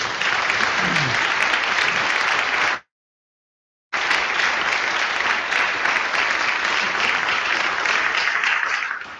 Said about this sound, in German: Tolle Arbeit und das ist ein Applaus wert.